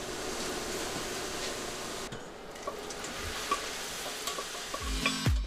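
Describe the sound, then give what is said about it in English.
Ground lamb sears in a pan with a steady, loud sizzle, while a few scattered clicks and scrapes of stirring break through the hiss. “The ground lamb is seared to bring out its flavor.”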